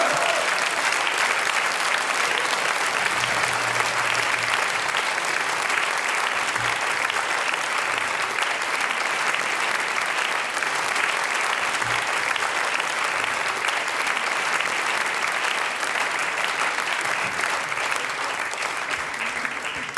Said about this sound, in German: Und vorher ein schier nicht enden wollender, tosender Applaus.